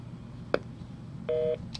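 Telephone line tones as a call is cut off: a short beep, then a steady dual-pitched tone lasting about a quarter second, and a brief final blip, all over a low background hum.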